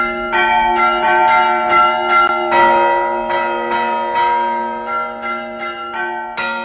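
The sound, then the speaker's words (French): An elderly bell ringer rings a church bell by hand in a village tower, giving many rhythmic strokes whose long, resonant tones overlap, loud and steady throughout. “Un sonneur de cloche dont l'art est en voie de disparition.”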